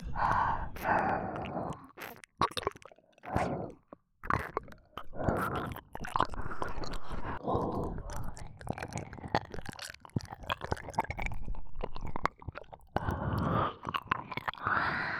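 Close, wet mouth chewing and biting sounds, as if nibbling on an ear, form many irregular smacks and crunches mixed with soft breathy sighs over about fifteen seconds, with only a few brief pauses.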